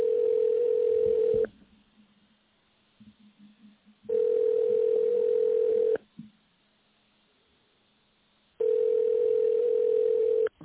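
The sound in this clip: Ringback tone of an unanswered phone call: three long, steady, mid-pitched tones of about two seconds each, separated by quiet pauses with faint noise.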